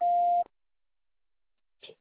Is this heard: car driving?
no